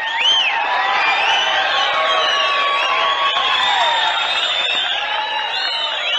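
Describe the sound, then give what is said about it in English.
The Grand Ole Opry audience cheers, whoops and whistles to welcome country singer Rose Maddox, a loud, unbroken crowd roar with high whistles threaded through it. “So let's have a real Grand Ole Opry welcome for Miss Rose Maddox.”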